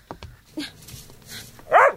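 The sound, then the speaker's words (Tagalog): A dog barks in front of a house. One loud, sharp bark comes near the end, after a few faint, brief noises. “Wisit na aso to! Dito ka na naman dudumi sa harap ng bahay namin, ha?”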